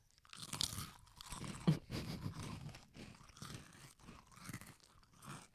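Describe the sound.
Crunchy vanilla wafer snacks are bitten and chewed close up in an eating session, producing many soft, irregular crackling crunches, with no talking.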